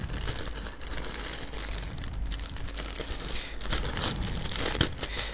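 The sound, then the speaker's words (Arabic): A small plastic bag taken from a cardboard box and opened: steady soft crinkling and rustling throughout, growing somewhat louder toward the end. “اول ما احط ايدي اليمين هلاقي كيس صغير كده. اطلع الكيس ده، هو حتى محطوط لي مكان محطوط فيه على اليمين، وهفتحه.”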